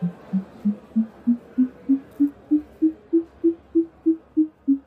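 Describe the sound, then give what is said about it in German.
A sonification of population development data for Germany plays as a run of sixteen evenly spaced, low, humming tones, each swelling and fading. The pitch dips slightly at the start, then climbs gradually before levelling off. “Zum Beispiel die Bevölkerungsentwicklung in Deutschland. Meine simple Audioübersetzung sitzt,”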